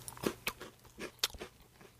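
Crisp crunching bites and chewing of a creamsicle-like orange snack with a wafery center, heard as a few sharp, quiet crunches spaced irregularly with softer chewing between.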